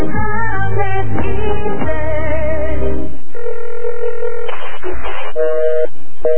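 Touch-tone keypad beeps sound as a telephone number is dialed, a series of loud, distinct tones in quick succession with no talk.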